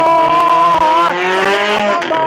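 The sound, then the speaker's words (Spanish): A buggy-class race car engine roars loudly as it seeks traction at a street race start near the municipal market of El Torno, its revving pitch rising and dropping in continuous harmonic bands. “Ruge ese motor. Busca tracción aquí en la zona del mercado municipal del Torno. Perfecto, si viene otro buggy.”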